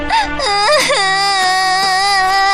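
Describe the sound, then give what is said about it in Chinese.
A princess cries in a loud, sustained wail. The tone is high and tearful, and its pitch wavers and sobs before settling into a long, steady cry. “公主，不要哭了”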